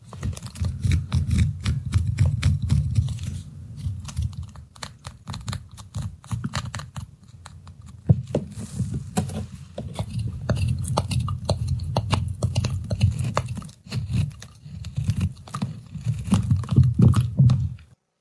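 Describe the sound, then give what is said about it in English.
Crisp crunching and scraping as a bar of soap is cut in half, many small rapid crackles arriving in uneven bursts over about eighteen seconds. “That was the sound of soap being halved.”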